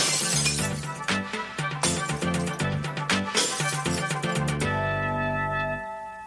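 Glass bottles are smashed for recycling in a rapid series of loud crashes and tinkling shards, many breaks overlapping before a lingering bright ringing tone fades out at the end.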